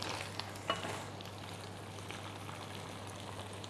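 Chili and basil stir-frying in a pan give off a steady, dense sizzle that stays at an even level throughout, with one small louder crackle near the start and no talk.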